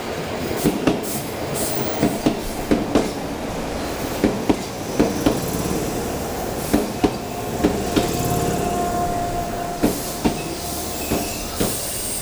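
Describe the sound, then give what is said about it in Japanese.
An 8000 series electric train runs on rails with a steady rumble, broken by many sharp, rhythmic wheel clicks that come in quick pairs, a clickety-clack that repeats throughout. “あれ、8000系か。”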